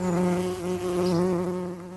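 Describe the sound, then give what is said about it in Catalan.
Wild pollinating insects buzz among abundant flowers of many kinds and colours, a steady, fairly loud droning hum with a low, rich tone that wavers slightly in pitch and level over two seconds, with no voices. “L'enorme oferta de flors, de tota casta i colors, està molt ben aprofitada per nombrosos pol·linitzadors silvestres.”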